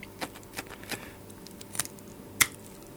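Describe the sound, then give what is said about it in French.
A scalpel cuts the skin away from a black bass fish in small, faint ticks and scrapes, a few separate strokes spaced unevenly. The last stroke is the sharpest. “Le poisson, c'est un, black bass. J'utilise un scalpel, hein, tout simplement. Et puis petit à petit, euh, je vais réussir à enlever la peau.”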